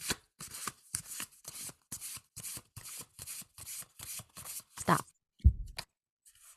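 A deck of oracle cards is shuffled in many quick, evenly spaced swishing bursts, quiet and rhythmic, ending with a couple of soft thumps as the deck settles.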